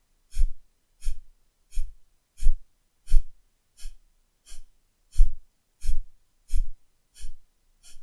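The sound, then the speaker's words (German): Kapalabhati breathing, with forceful nasal exhalations: twelve short, sharp puffs of air through the nose in a steady, even rhythm, each clearly separated by silence. “Wenn dir die Kapalabhati-Atmung geläufig ist, kannst du auch stoßweise durch die Nase ausatmen mit einem und die Bauchdeckenbewegung ein bisschen aktivieren.”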